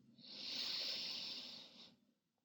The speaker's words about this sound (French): Allez-y, prenez une grande inspiration.